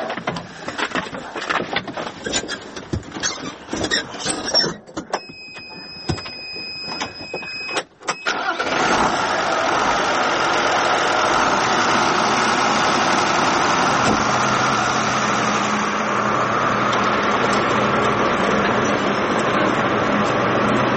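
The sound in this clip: A tractor engine starts at night in a grain field, with a long stretch of clattering clicks and rattles before it catches. It then settles into a loud, steady, rumbling idle that runs unbroken to the end.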